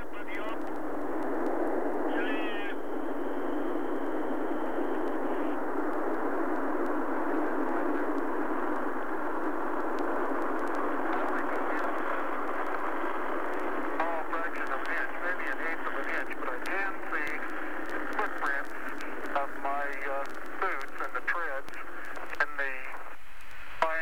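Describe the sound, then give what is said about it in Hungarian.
A rocket launch with 32 engines igniting at once, heard as a steady, dense roaring rush that fills the whole clip with little change in loudness, while a voice speaks over it. “Hiszen most egyszerre 32 hajtómű lépett működésbe, hogy legyőzze a föld nehézségi erejét.”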